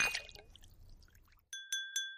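Drinking glasses clink three times in quick succession during a toast. Each is a bright, ringing chime with a short decay, following a second or so of softer, scattered clatter.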